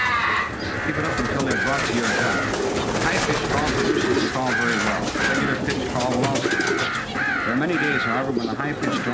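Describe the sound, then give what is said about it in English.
Crow sorrow call blown on a game call, as used for crows that have sighted dead birds in front of a blind: loud, harsh, repeated cawing notes running continuously and without pause. “The sorrow call is for use in crows that have sighted dead birds in front of your blind.”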